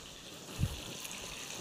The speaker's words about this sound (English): They start to fry. And as the liquids come out, they boil a little bit.